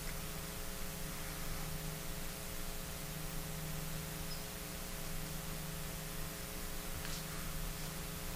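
An FFS vertical form fill packaging machine running, giving a steady, unbroken whirring hiss over a constant low hum that holds level throughout, with no talk.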